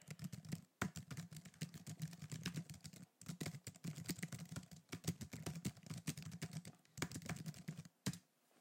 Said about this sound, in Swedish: jag ska bara skriva klart här.